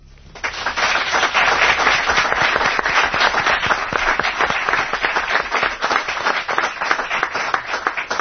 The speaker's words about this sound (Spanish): Os van a saludar a todos con este aplauso.